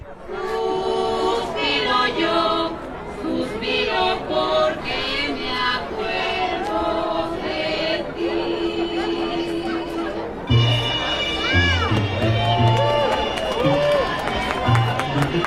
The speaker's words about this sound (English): Sounds from the Dia de los Muertos celebration in downtown Carbondale.